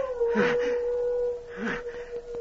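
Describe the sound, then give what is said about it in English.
Wolves howling, one long, steady, sustained howl held across the whole stretch, with two louder rushing swells rising around it. “That howl. It's wolves.”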